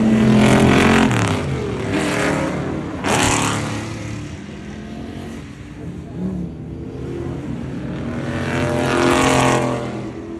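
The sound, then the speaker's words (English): A Mustang race car engine roars on a race weekend with a fast, high-pitched note. The sustained sound is loud throughout, swelling near the start, again at about three seconds and toward the end. “There's a slightly more sort of faster, higher pitched noise from Alex Brundle's Brustang, driven by Jimmy Broadbent and Jan Mardenborough this weekend.”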